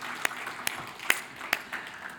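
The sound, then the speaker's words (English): Scattered clapping from a church audience at the close of a service: a few sharp, distinct claps at a fairly steady pace over a faint, soft wash of noise, fairly quiet overall. “let's give the Lord a round of applause for all he's doing.”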